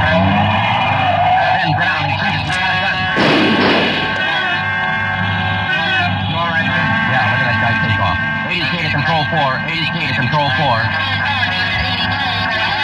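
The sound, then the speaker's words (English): A gray Ford convertible driving without lights: steady engine and road noise, broken early by a loud, harsh skid lasting about a second, while voices talk throughout. “He's driving a gray Ford convertible, license 61 Robert 385. Suspect headed east on Olympic from Alameda, driving without lights.”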